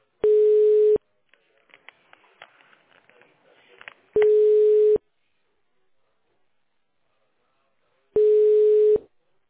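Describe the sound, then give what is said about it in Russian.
Telephone ringing tone while a call to a fitness club is transferred: three loud, steady one-second tones spaced about four seconds apart, with faint clicks and murmur in the gaps. “Спасибо. Перевожу звонок.”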